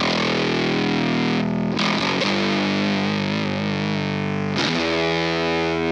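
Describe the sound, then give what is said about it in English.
Electric guitar played through a fuzz distortion effect, loud and thick with sustained chords broken by a couple of brief pauses and restrikes, with no voices. “Should I put on some prohibitive fuzz?”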